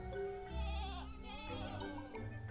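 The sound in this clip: A human voice imitates a sheep's bleat, giving one wavering, nasal cry that lasts a couple of seconds.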